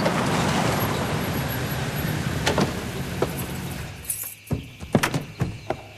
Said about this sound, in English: Later, Cooper drives up in front of Cold Creek Manor.